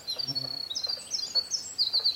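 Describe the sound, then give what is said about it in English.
Song of a winter wren, a tiny woodland bird, heard as faint, high-pitched thin notes and rapid twittering trills that run in short bursts throughout. “And winter wrens are, about 4 inches, very small birds. Winter wrens are the wren of the woods.”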